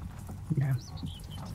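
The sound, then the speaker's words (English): Horse hooves clip-clop briefly as a rider mounts up and sets off back toward a town in a fantasy tabletop role-play game. The burst is short and soft. “And I mount up my horse and head back to Misty Rapids.”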